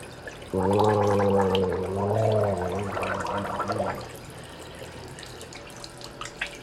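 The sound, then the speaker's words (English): Water gurgles down the drain of a 100-year-old porcelain sink, a low bubbling rush that swells for a few seconds, then fades into faint trickles and drips. “A little gurgle from a 100-year-old sink.”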